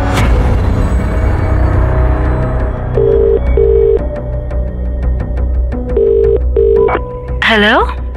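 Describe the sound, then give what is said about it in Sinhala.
Ringback tone of an outgoing phone call, heard as two pairs of short, even beeps separated by a pause, over a steady droning musical background, with a brief warbling tone near the end. “විහංග එළියට යන කල් ඉඳලා Sachi සමාරට phone call එකක් ගත්තා.”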